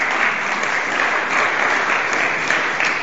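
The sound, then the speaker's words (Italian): Applause from an audience at a talk as a speaker is introduced: continuous, even clapping that stays at a fairly steady loudness throughout, with no talking on top. “Facciamo un applauso subito per”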